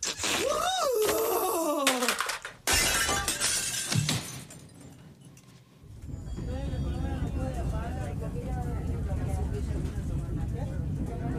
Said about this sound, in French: finit par casser son ordinateur.